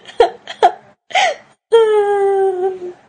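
A woman bursting into tears, voiced in a performed crying: a couple of short sobbing gasps, a wavering cry, then a long, loud, sustained wail that sinks slightly in pitch.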